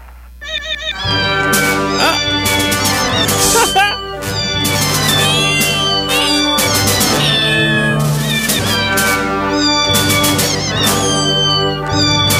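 A cat meows repeatedly along to a film theme tune, its drawn-out, wavering meows carrying the melody loudly and continuously over the music.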